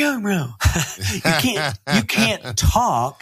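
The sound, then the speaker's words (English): A person trying to speak while inhaling, producing strained, breathy voiced syllables in several uneven bursts with short gaps between them. “I'm just going to try it for a second just to prove my point. So I'm going to say, my name is, and here comes the inhale.”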